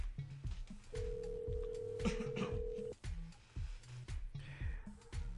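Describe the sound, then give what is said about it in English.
Telephone dialing and ringing tones as a call is placed: a run of short beeps, then one steady tone held for about two seconds, followed by more short tonal beeps. “Let's see what happens when we call him. Let's see if he even answers.”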